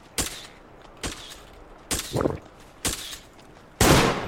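Gunfire rings out in a multiplayer video game, five sharp shots spaced about a second apart, the last one the loudest and longest, with no talk over them.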